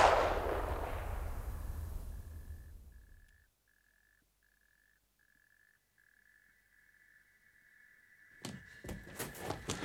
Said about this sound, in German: Ich habe ihn erschießen müssen, sonst hätte er mich erschossen.